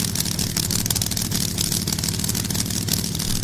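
Drag racing cars, a pro charger entry against a nitrous car, rumble loudly while staging, a dense, harsh engine roar with rapid fluttering pulses that stays steady and unbroken throughout, with no voices over it.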